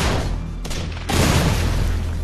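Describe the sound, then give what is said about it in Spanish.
A German tank fires from the southern edge of a forest in a World War II battle on the Rhine. One heavy boom bursts out of a continuous rumble of battle noise. “Hasta que un tanque alemán les dispara desde el extremo sur del bosque.”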